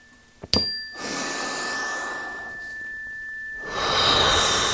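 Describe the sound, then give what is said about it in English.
A deep cleansing breath during a guided breathing exercise: a long, soft, airy inhale, then a louder, breathier exhale, with a brief click just before the breath begins. “We'll take two cleansing breaths together. So let's inhale deeply. Exhaling.”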